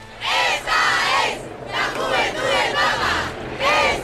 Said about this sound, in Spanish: Este es el sonido de la calle.